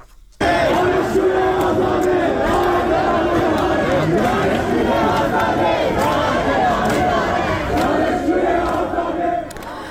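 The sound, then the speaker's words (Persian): Students protest at Khajeh Nasir University, a crowd shouting and chanting together in a loud, unbroken roar that holds steady for nearly ten seconds. “دانشگاه خواجه نصیر تجمع هست. گزارشایی از درگیری در اونجا و دستگیری تعدادی از دانشجویان منتشر شده. صدای دانشجویان دانشگاه خواجه نصیر رو میشنویم.”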